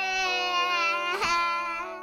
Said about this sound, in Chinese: 他就嚎啕大哭了，因为真的他觉得自己闯大祸了，不知道该怎么解决，他就哇哇大哭了。